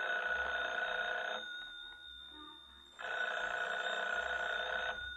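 A telephone rings with two long, buzzing bell rings separated by a short pause, fairly soft and alone, with no voices.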